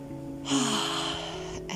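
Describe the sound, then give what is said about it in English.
A deep breath drawn in: a steady, airy hiss lasting over a second, with a brief break near the end before a second intake begins, over a soft, steady tonal hum. “Let's all take a deep breath in.”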